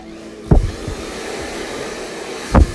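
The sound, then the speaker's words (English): A hair dryer blows hair downward during hairstyling, giving a steady, loud whooshing drone. Two brief thumping bumps break through the airflow. “it's important to blow all the hair down.”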